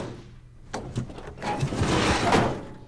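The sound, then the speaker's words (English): A cab's sliding door is pushed closed with effort: a few dull knocks and rattles lead into a longer, louder rolling scrape along its track. “He struggles to close the sliding door of the cab.”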